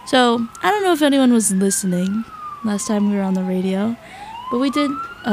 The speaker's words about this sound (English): I don't know if you can hear that. That's the sound of the police. It's, sirens outside. Something's happening.